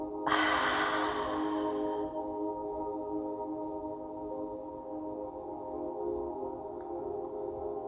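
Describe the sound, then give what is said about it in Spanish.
A deep breath in during a guided meditation: a soft, airy inhale that swells quickly and fades over about two seconds, quiet above a steady, low sustained tonal drone. “Respira profundo y exhala por la boca.”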